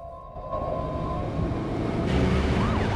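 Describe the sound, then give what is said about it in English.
Police car sirens pass by on a road as the cars roll along, a wailing tone over steady traffic rumble that grows louder and begins sweeping up and down in pitch toward the end. “Elmo and Felix hurry down the road as police cars roll past them in the opposite direction.”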